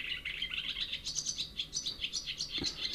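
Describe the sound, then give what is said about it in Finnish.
Common chaffinch song: many quick, high chirping notes repeat in a steady, lively run, bright and moderately loud throughout. “Ja peippo.”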